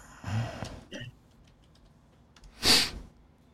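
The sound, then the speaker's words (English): A few soft, sparse keystrokes on a computer keyboard tap in a search, faint and spaced out across the moment. “You could type in health, or you could type in blood sugar, and it should come up at the top.”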